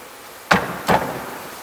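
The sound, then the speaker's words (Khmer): Two sharp, loud knocks on a hard surface, spaced less than half a second apart, stand alone over a faint steady hiss. “ខ្ញុំគោះដើម្បីបងប្អូនភ្ញាក់បន្តិច”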